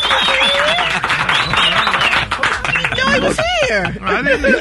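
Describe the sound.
A big round of applause on a morning show: dense, steady clapping that runs through the whole clip while people keep talking loudly over it.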